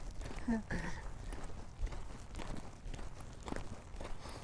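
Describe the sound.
Footsteps of a person walking along a shady road, faint and steady with many evenly paced steps throughout.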